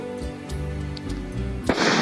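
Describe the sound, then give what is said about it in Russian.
A single gunshot rings out as a sharp, loud burst near the end, breaking a quieter low, steady tonal background. “Раздался выстрел.”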